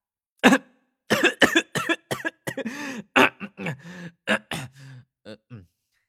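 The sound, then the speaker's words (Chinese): A voice performs a run of dry coughs and throat clearing, many short, sharp bursts separated by brief pauses. The sounds are clear and close, with no background noise. “年大大干咳了片刻”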